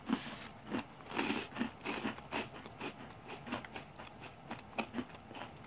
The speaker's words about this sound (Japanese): エスプレッソシナモンラスクだったよ、うんうんうん、美味しい歯ごたえもすごいな